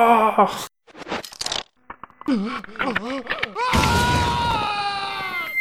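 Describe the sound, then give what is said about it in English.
A voice imitates a video game character screaming as he puts on a mask, complete with a crunching sound. Short wavering vocal bursts lead into a loud, sustained, harsh scream with a gritty, crunching texture that runs to the end. “he would literally scream, and there would be like a crunching sound”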